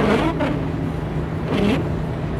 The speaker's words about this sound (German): Es ist nur so ein bisschen feucht und kommt immer nur so ein Sprühnebel von den äh, entgegenfahrenden Autos an.